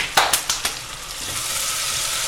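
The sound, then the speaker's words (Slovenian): Sugar sizzles with onion in a pan, a steady airy hiss. A few sharp ticks or scrapes come early on, then the frying settles into an even crackle. “Malo sladkorja zraven še opražim.”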